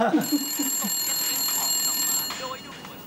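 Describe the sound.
A telephone rings with a steady, high electronic tone held for about two seconds, while a voice is briefly heard at the start and again just after the ring stops.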